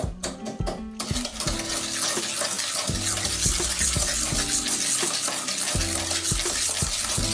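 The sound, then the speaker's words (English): An egg is stirred into a mixture, giving wet, sloshing stirring with repeated scraping strokes at a steady pace. The sound is fairly loud and continuous, and no voices are heard. “I want to add in 1 egg at a time. Drop it in, stir it in.”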